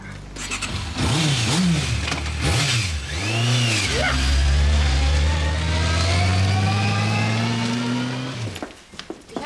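A car engine revs a few times in quick surges, then settles into a steady, sustained drone as the car drives off, fading out near the end.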